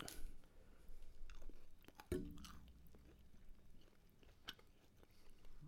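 Gummy candies being eaten make faint, irregular chewing and biting sounds, soft wet mouth noises with one sharper bite near the middle.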